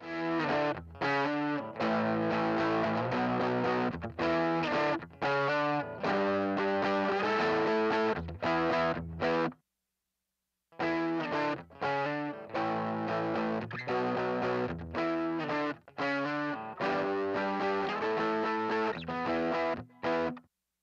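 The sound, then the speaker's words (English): A distortion pedal played with an electric guitar, once through germanium diodes and once through silicon diodes: two loud, fuzzy passages of the same chopped, rhythmic chord phrase, split by a short silence. “I'll play the same thing over with a new set of diodes. You're going to hear how the germanium is really smooth, and the silicon's really aggressive and has a lot of push, a lot more treble behind it.”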